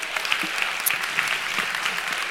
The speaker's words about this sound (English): And then it is totally okay to give a big round of applause to our worship team.